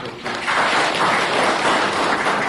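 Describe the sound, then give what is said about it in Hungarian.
A church audience applauds the finished renovation of pews and heating: a dense, steady wash of clapping that swells after a brief softer start and holds evenly to the end. “Úgyhogy tapsoljuk meg azokat, akik fáradoztak ezen, meg önmagunkat is, hogy”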